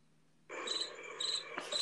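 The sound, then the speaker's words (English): Crickets chirping: a dense, high trilling begins after about half a second of near silence and carries on steadily, swelling in stronger bursts toward the end, with no voices. “Cricket voice.”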